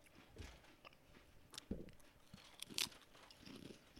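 Faint crunching as wasabi potato chips are bitten and chewed, a few crisp snaps scattered among softer mouth sounds.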